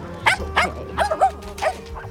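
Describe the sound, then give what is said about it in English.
A dog growls and grumbles in a dog park, giving a few short, moderately loud vocal bursts whose pitch swoops up and down. “Stop that growling.”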